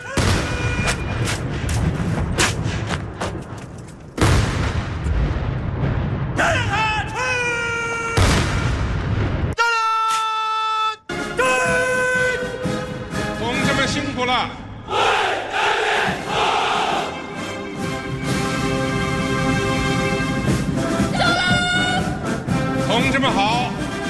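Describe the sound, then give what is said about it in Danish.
Loud, rapidly cut montage from a Chinese parade marking the People's Republic's 70th anniversary, where thousands of women in short skirts and long black boots march in formation: band music, crowd shouting and booming bursts alternate across abrupt edits. “der var på et tidspunkt flere tusind kvinder i nogle korte skørter og lange sorte støvler, som gik på række i strukturerede formationer. Ja, jeg lavede et lille sammenklip af det her, og det tog sig sådan her ud.”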